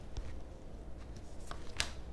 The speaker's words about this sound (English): I'm going to pull a card for the energy of the situation.